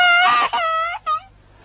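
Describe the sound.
A teething baby cries in three high-pitched wailing bursts. The first two are long and the last is short, and they are followed by quiet.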